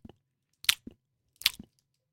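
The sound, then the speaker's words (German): Teeth biting into and crunching a hard cocoa candy: a few clusters of crisp, short crunches with near silence between them, and no talk over them. “jetzt mal draufbeißen. Und jetzt zerbeiß ich's.”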